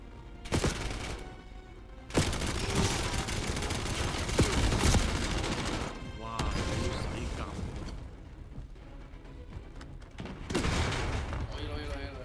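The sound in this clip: Rifle gunfire in a video game cracks out in dense, loud bursts with mechanical clatter between volleys, the shooting rising and falling in several clusters across the stretch.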